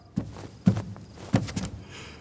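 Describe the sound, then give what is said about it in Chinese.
Unusually heavy footsteps of a man: four dull, thudding steps at an uneven pace, each landing with a low, weighty impact. “是三弟的脚步声。他脚步沉重，异于常人。”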